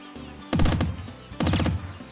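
Gunfire in a video game: two short, loud bursts of rapid shots, each lasting about a third of a second, with a brief pause between them over a low background hum.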